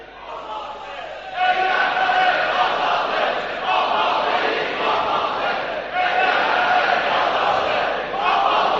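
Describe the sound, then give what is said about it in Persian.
A large crowd chants slogans in unison at an election rally, a loud, dense roar of many voices that swells in repeated surges throughout. “آفرین بر شما، شعار میدید و عمل میکنید الحمدلله.”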